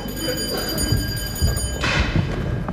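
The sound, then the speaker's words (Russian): An electric doorbell rings in a radio-play staging of the comedy "Marriage", a loud, shrill, continuous buzzing ring lasting under two seconds before it cuts off. “звонят, это верно кто-нибудь из них.”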